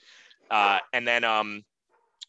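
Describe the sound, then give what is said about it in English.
A dog gives two drawn-out, tonal barks or whines, the second longer and broken up, then a faint short tick. “sorry about the dog, everybody. All good. All good.”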